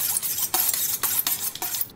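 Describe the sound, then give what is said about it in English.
A sharp knife scores the fatty skin of a goose, making shallow cuts through the fat. Several crisp scraping strokes sound in an uneven rhythm, fairly loud, with no voices. “you take a sharp knife and prick all around there when you roast it. We're going to score the goose.”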